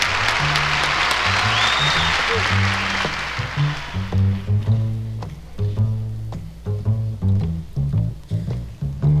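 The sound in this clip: An audience applauds to welcome a singer at a live show, with loud sustained clapping that fades after about four seconds as a band starts playing.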